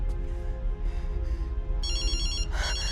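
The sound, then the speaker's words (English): A phone rings with a bright, high electronic ringtone that warbles in over a steady low drone of background music near the end, followed by a second, shorter burst. “answers her phone”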